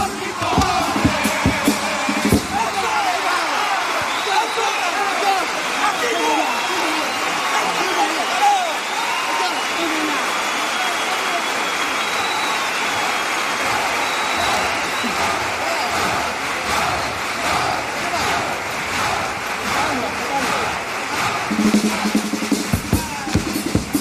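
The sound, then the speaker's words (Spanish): A contest audience reacts to the close of a pasodoble with a dense, sustained roar of applause, cheers and shouting voices, loud throughout with sharper bursts near the start and end. “Hemos querido dejar ahí la reacción del público a cómo han rematado este paso doble. Escuchen.”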